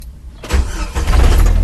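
A 1999 Jeep TJ engine starts with the ignition key after an ignition cylinder reinstall. A brief quiet lead-in gives way to a sudden catch, and the engine settles into a loud, steady, low rumble.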